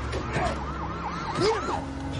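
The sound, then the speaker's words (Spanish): A police patrol car's siren wails in repeated rising and falling sweeps during a full-speed chase through a port, with several cycles clearly audible over a low vehicle rumble. “Un coche patrulla los sigue.”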